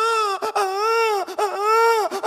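An infant cries in several high, wavering wails broken by short catching breaths, each cry loud and strained with a quavering pitch.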